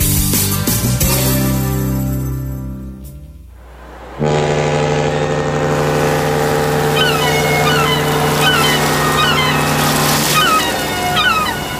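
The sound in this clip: Engine running aboard a cruise ship: a steady, loud, low drone with sustained tonal hums sets in after a few seconds and continues unbroken to the end.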